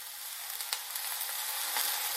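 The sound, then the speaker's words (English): Mushrooms sizzling in a pan as they are gently pushed around: a faint, steady frying hiss with a few soft scrapes and no talking. “I just kind of like gently push the mushrooms around so they all, most of them anyway, are touching the bottom of the pan.”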